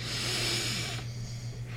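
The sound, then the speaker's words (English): A deep breath taken through the nose during a relaxation exercise, a steady, airy hiss that holds for about a second and then softens into a quieter, rougher rush of air. “Let it all go. Let absolutely everything go with that exhale”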